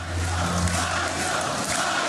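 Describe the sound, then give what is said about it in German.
Recorded crowd chanting "Nigel", played back at a Brexit Party rally in Sunderland: a dense, steady roar of many voices with a low hum beneath, loud and unbroken throughout. “Die Nigel-Rufe kommen vom Band und stimmen das Publikum in Sunderland darauf ein, dass er wieder da ist.”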